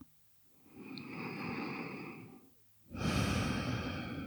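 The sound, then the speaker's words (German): Slow, deep breathing into the lower belly during a relaxation exercise: one long, soft, airy breath is followed after a brief pause by a second, louder breath. No voice is heard. “Nur ein paar tiefere Atemzüge in den unteren Bauch.”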